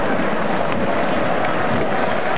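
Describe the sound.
Stadium crowd at a Norway football match applauding their substituted captain as he leaves the pitch, a broad, sustained roar of clapping and crowd noise that stays loud and steady throughout.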